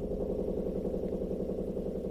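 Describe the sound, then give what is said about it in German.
A washing machine runs a 60-degree wash with a steady low mechanical hum and a fast, even pulsing throb that never changes in level, with no voices. “Es ist eine 60-Grad-Wäsche. Ist aber auch beruhigend. Also ich hör's ja wahrscheinlich deutlich leiser als ihr jetzt gerade”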